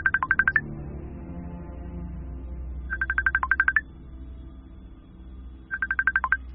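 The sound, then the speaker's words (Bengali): A messenger app call rings out: three short bursts of rapidly pulsed tone repeat at even intervals, with a faint low hum underneath between them. “দোনামোনা করতে করতে মেসেঞ্জারে গিয়ে call করেই ফেলল পরি”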